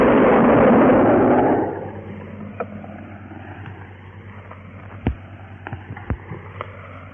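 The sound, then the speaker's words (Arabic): Iftar cannon fired to mark the breaking of the Ramadan fast: a loud, broad boom that fades over about two seconds into a low rumble with a few faint pops. “أيها السادة، إلى مدفع الإفطار.”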